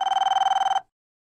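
A telephone ringing as a call goes out to Dynamite Floors, a flooring business: one short, trilling ring of rapid, even pulses that cuts off into silence.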